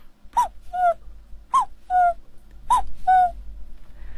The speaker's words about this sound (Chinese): 布谷鸟就是它这个声音都是不一样的，因为这个年轻的布谷鸟这个叫法和这个老的布谷鸟都是不一样的。